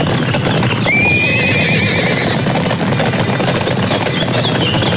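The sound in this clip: A horse neighs as it passes by, giving a long, high, wavering whinny over a steady clip-clop of hooves. Loud continuous background noise runs throughout, with no talking.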